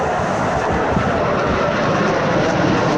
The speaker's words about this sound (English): Oakland International Airport here, where the Blue Angels are prepping for their big display for Fleet Week.